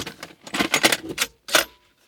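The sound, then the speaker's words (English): Cassette tapes shuffled around in a big box and one put into a tape player: several bursts of clattering plastic rattle, a short pause, then one more clack. “And here I have a massive box of tapes. And I'm just going to shuffle them around and pick a tape, put it in the tape player,”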